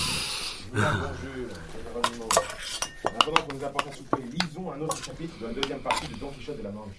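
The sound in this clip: Pots, dishes and cutlery clatter at an inn's supper table as a steaming pot is served: many scattered clinks and knocks of metal and crockery, heard under continuous talking voices.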